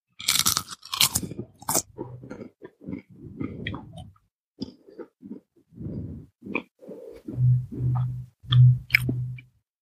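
Crunching and chewing on a sweet potato chip: a run of loud, crisp bites at first, then many softer, moist chewing sounds in an irregular rhythm, with no talk.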